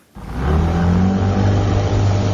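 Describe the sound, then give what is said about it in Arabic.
Engine of a wooden boat used for travel in Iraq's southern marshes, a steady low drone that starts after a brief quiet moment and holds loud and even throughout, with no voices. “كان هذا صوت محرك لقارب خشبي، وهو وسيلة التنقل التي يعتمد عليها سكان أهوار العراق”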